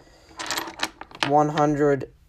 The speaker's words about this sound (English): Let's roll some dice.